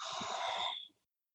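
A single deep inhale through the nose during a guided breathing exercise. The soft, airy rush lasts about a second, then fades into silence.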